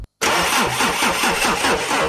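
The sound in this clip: A car engine starts after a brief moment of silence, cranking with quick rhythmic pulses and then running on at a steady mid-pitched level, with no voices.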